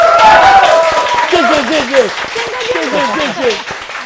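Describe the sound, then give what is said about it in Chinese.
A studio audience applauds a guest, a rapid patter of clapping that stays loud at first and then eases, while people talk over it. “掌声不要停”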